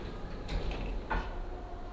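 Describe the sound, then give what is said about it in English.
Elevator doors opening: two short sliding, rumbling sweeps about half a second apart over a low, steady background hum. “Level 5, Industry and Empire, Upper Gallery. Restaurant. Doors opening.”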